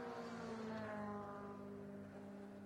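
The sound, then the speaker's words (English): An Audi RS6 Estate intervention car drives along a race track toward the Döttinger Höhe, giving a loud, steady droning engine note with a strong harmonic whine that holds without a break. “So halfway through this session, gentlemen, with one of the Audi intervention vehicles that we were just talking about, the RS6 Estate, just coming back down”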